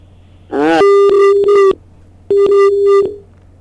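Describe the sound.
A telephone busy signal from a farm call-in line whose call fails to connect: two steady, mid-pitched tones of about a second each with a short gap between them, preceded by a brief warbling sound.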